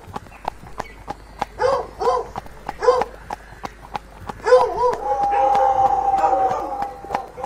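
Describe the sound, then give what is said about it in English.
Pack of hounds in full cry on a fox hunt across the countryside, giving repeated baying howls and yelps over a steady, rhythmic clip-clop of hooves, the cry swelling into a longer sustained howl toward the end. “And listen to the cry of them passing through the countryside, working out the puzzle of a fox.”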